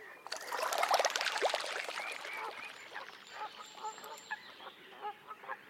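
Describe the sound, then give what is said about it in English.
A little grebe pattering across the water surface: a brief burst of splashing, followed by a series of short, honking bird calls. The whole clip is faint. “You rarely see a little grebe fly, but you will hear them pattering across the surface, whether to join its mate,”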